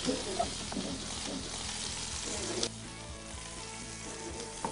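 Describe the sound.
Food sizzles while searing in a hot pan to build a crust before going into the oven. A faint, steady frying hiss runs throughout, with a sharper clatter near the middle.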